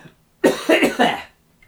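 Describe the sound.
A person coughs into a microphone in a quick, loud run of several harsh, throaty coughs, then falls quiet.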